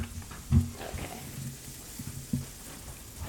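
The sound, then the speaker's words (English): Food fries in hot oil with a soft, continuous sizzling hiss, broken by two sharper, louder bursts of clatter. “I don't know what heat this oil's supposed to be on. She's frying these things inside and out.”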